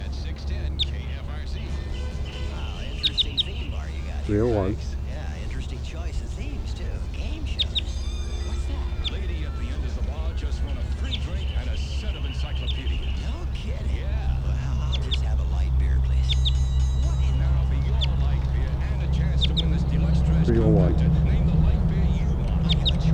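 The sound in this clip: A wild bird gives a few short, scattered Type 2 calls with sharp, stacked tones, over a steady low background rumble.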